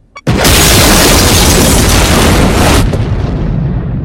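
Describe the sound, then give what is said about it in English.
An explosive device detonating and blowing a ship apart: a sudden, very loud blast that holds as a dense, roaring rumble for several seconds, easing slightly toward the end. “Miller looks out to see the Lewis and Clark being blown to pieces.”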